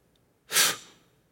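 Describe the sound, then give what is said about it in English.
A boy's fake sneeze aimed at his grandfather: one short, breathy burst of air that flares up suddenly and trails off quickly, with no voices around it. “Bobby puts the block on top, looks at his grandfather, and he fakes a sneeze.”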